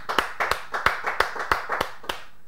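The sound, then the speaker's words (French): Rhythmic clapping from a church audience acclaiming the name of the Lord during a prayer service, an even, steady beat of crisp claps at moderate loudness with no talk over it. “Acclamons pour le nom du Seigneur.”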